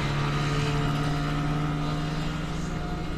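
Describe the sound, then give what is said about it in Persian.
A boat engine drones steadily as the boat sets off, a continuous low, rumbling hum that stays level in loudness throughout. “قایق راه میافته.”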